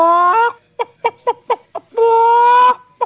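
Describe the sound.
A person imitates a chicken with a drawn-out squawk, a run of short, evenly spaced clucks, another long sustained squawk and a final cluck. The loud, nasal voice is heard alone.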